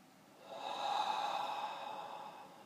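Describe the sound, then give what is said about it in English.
A slow, deep breath during a guided meditation, drawn in through the nose and out through the mouth. It is soft and airy, swelling gently and then easing off. “You can close your eyes and take 3 deep breaths in through the nose, out through the mouth.”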